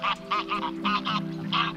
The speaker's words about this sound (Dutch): En er komen gouden ganzen over. Ja, die hoor ik alleen.